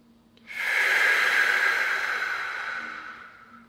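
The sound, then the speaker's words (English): A single deep breath drawn in through the nose: a steady, airy hiss that starts abruptly and lasts about three seconds, then slowly fades. “let's start with a deep breath, and we're gonna breathe in through the nose. Hold.”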